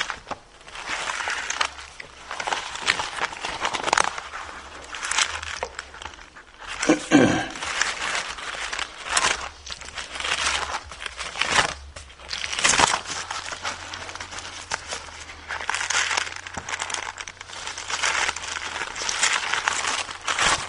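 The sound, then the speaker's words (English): Loose pages of a Bible being turned make many papery rustles and crinkles, with sharper crackling flips scattered irregularly throughout. “these pages turn loose here.”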